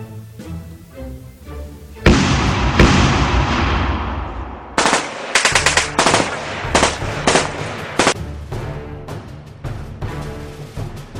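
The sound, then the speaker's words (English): A heavy explosion booms and slowly decays, then automatic gunfire erupts at Fort Rupert in rapid, loud bursts of cracking shots that keep coming in short volleys. “And these explosions are immediately followed by automatic gunfire.”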